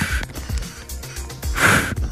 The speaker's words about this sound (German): Jetzt muss ich selber atmen. Jetzt würde ich 2-mal die Menschen beatmen.